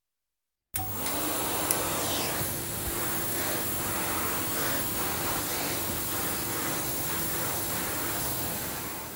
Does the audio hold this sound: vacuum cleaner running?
yes